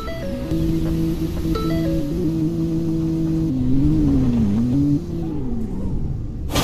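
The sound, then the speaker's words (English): Car engine in a Roblox driving game as the car drives in reverse: a steady synthetic drone whose low tone wavers and dips in pitch partway through, continuous and even throughout, with no talk. “Okay, I'm literally driving in reverse and I'm quite scared.”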